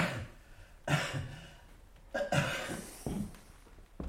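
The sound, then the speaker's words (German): A man coughing on request during a doctor's examination, a few harsh coughs separated by quieter breathing pauses. “Tiefer atmen. So, ja. Husten.”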